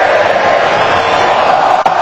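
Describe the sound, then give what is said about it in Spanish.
Stadium crowd noise at a Colombia football match in Vancouver, late in the game with Colombia leading 1-0: a loud, dense, steady roar of many voices, held without a break. “Escucha el público.”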